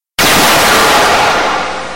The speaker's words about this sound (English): I'm a-charging my smitometers and firing my smiting lasers.